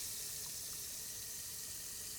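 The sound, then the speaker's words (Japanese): Lukewarm tap water runs while a face is rinsed at a sink, making a faint, steady hiss of flowing water that holds level throughout with no voices. “そしたら洗い流そっか。ぬるま湯で。あ、ちょっと暑いかな。”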